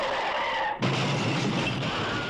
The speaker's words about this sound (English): The car crash and that sting was me trying to get that sentence out.